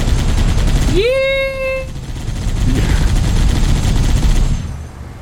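Loud, dense video-game gunfire rattles continuously, with a brief whistling tone that rises and holds early on before the firing carries on to the end.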